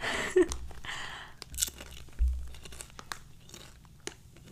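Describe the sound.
Crunching and chewing of a crunchy paprika-flavoured snack: a few faint, crisp bites followed by quieter, softer chewing, with no talk.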